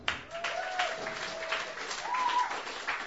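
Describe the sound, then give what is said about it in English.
Open mic comedy audience applauding a first-time comic: a brief round of clapping with some cheering over it, swelling slightly toward the end. “Please give a first time round of applause to Jay.”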